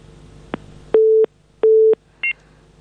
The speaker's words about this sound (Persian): فکر کنم تماس شنوندی ما قطع شد.